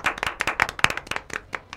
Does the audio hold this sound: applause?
yes